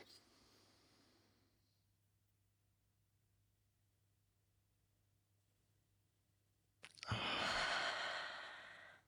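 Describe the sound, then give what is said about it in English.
Deep breathing during a guided breathing exercise: a faint breath fades out at the start, then a long quiet pause, then a loud, forceful, airy breath near the end, with no talk. “inhale for four or five seconds. We'll hold our breath for four or five seconds, and then we'll exhale for four or five seconds.”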